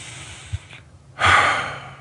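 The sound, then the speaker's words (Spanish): A deep inhale drawn after a full exhale in a guided breathing exercise. A short quiet pause gives way to a strong, airy rush of breath that swells and then slowly tapers. “exhala tan completamente como es posible, espera un momento, y eh, inhala”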